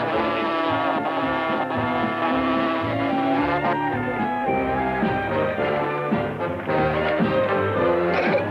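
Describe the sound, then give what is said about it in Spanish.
A character's voice imitates an outboard motor with a continuous, buzzing, engine-like drone that holds steadily at full loudness for the whole stretch and shifts pitch slightly along the way. “Este personaje que se llama Evinrud cree que es un motor fuera de borda.”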